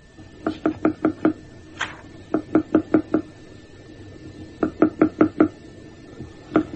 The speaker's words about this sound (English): it could make itself known to its own species. And how did it develop from this stage? From this simple tap, one now finds that a rhythm starts to develop.